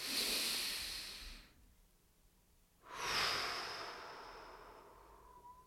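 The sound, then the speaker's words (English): A person taking a slow, deliberate breath: two long, soft, airy hiss-like phases separated by a pause of about a second and a half, quiet and unaccompanied by speech. “let's just take a little breath on this one.”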